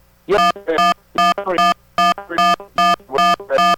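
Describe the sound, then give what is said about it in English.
Someone dials a telephone on a live radio call line: many short, loud electronic tones in quick pairs, evenly spaced and strongly buzzy, with no talking. “I hear somebody trying to dial. That is strange. I don't know where that's coming from.”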